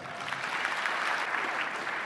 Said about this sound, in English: Against all expectations, the audience warms to his rhetoric and goes wild.